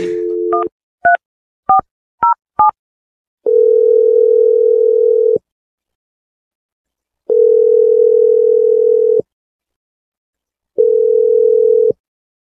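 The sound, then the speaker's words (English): A telephone dial tone gives way to four quick keypad tones as a number is dialed. Three long, steady ringing tones follow, each separated by silence. “So I'm going to dial Jessie's number and we're going to get your second date.”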